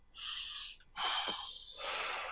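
Deep breaths taken during a guided emotional-release exercise: three long, airy, hissing breaths in a row, each loud and breathy with short pauses between, heard alone with no talking.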